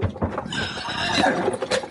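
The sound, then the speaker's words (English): Horses neigh and whinny in a Western-style gunfight scene, with loud, shrill cries over a busy blend of hoof clatter and rustling movement throughout. “hold on to them horses”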